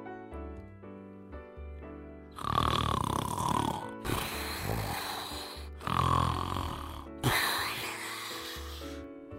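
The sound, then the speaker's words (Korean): A man asleep in a cave snores loudly, with four long, rough, rasping breaths in slow rhythm and quieter pauses between them. “사울은 근처 동굴에 들어가서 딥슬립, 깊은 잠에 빠졌어요.”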